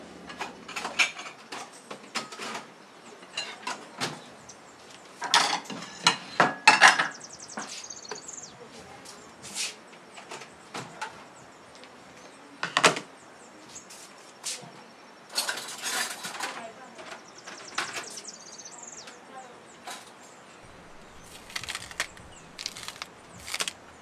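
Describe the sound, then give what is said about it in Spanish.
Knife work on meat being sliced thin for carne sudada: irregular taps, scrapes and crunchy cuts scattered through, with occasional clatter of kitchen utensils and quieter stretches between bursts. “ya me pongo a tasajear la carne para hacer la carnita sudada”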